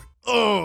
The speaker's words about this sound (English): Here's the sound of my stomach after eating at a chain pizza shop.